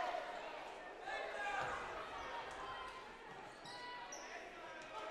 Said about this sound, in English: McKee dribbles it off his own knee, but gets it back.